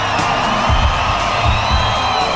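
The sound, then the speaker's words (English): A loud crowd screams and cheers at a live music show at a hotel in Ibiza, a dense, continuous roar of many voices with a few heavier low thumps underneath. “I want you all to make some noise for me right now. I said make some noise. Scream as loud as you can”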